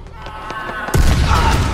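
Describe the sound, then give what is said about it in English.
A single loud gunshot blast bursts out suddenly near the midpoint of an action scene in which a fleeing man is thrown through a hedge, leaving a heavy, rumbling roar after a quieter opening. “A gunshot blast propels the fleeing man through a hedge.”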